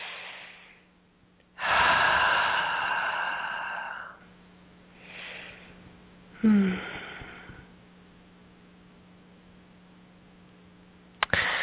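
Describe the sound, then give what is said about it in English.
Deep breathing, in through the nose and out through the mouth: a few slow, drawn-out breaths, faint and unhurried, with quiet gaps between them. “nice deep breaths in through the nose and out through the mouth.”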